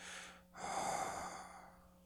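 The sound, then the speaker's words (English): A long, slow exhalation pushed out from the belly during a deep breathing exercise. The soft, airy rush swells and then fades over about a second. A shorter breath comes just before it, and a faint steady tone sits underneath, with no talking. “Contract the belly, push the breath out.”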